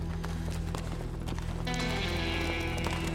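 Hooves of riders' horses galloping toward the listener in a Western setting, a rapid, steady clatter of many hoofbeats that continues throughout.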